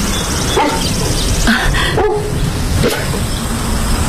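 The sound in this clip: A dog barking and yipping a few times in short, separate bursts over a constant noisy background.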